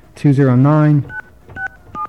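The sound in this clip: Telephone keypad tones as a voicemail number is dialed: a sustained voice first, then three short, clear two-tone beeps spaced apart.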